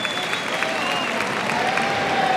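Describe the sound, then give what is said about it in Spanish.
Sustained applause and crowd noise as spectators at a bullfight give a bullfighter a final ovation, a dense, even wash of clapping that stays loud throughout without a break. “Manuel Escribano, que recibe la ovación final”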